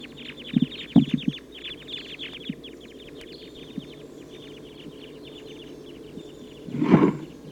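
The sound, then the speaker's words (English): A flight flock of about 14 type 2 crossbills calling: many short, sharp chip notes form a faint, quick chatter that thins out over the first half. “They're recording that big flock of about 14 type 2 crossbills took off to the south.”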